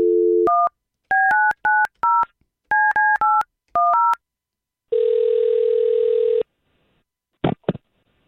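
A telephone call being dialled: a short low tone, then a rapid series of keypad beeps in small bursts. A long, steady tone and a couple of faint clicks follow.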